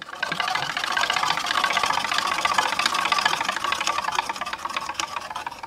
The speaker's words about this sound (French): Et donc, quand tu veux, on actionne la roue. Allez, on y va.